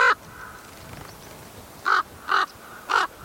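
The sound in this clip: Common ravens calling in an unfamiliar regional dialect: a brief call at the start, then after a pause three loud, harsh, evenly spaced croaks.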